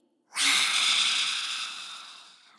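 A long, deep inhale through the nose during a lion's breath exercise in a children's yoga session. The breath starts abruptly and strongly, then fades gradually over about two seconds, with no talking.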